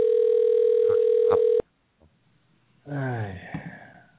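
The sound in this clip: A phone's call tone right after the call button is pressed: one steady, mid-pitched tone held for about a second and a half, then cut off abruptly. A pause follows, then a voice speaks.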